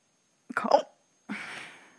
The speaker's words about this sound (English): Hence the hiccups.